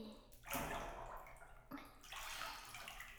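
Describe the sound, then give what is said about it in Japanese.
Water sloshes and pours as bath lotion goes into a bathtub full of water, a faint, continuous wet splashing with a couple of stronger surges. “ロケアウっていうお風呂専用のローションです。もちろん、ただのローションじゃないんですよ。これを湯船の中に入れて、”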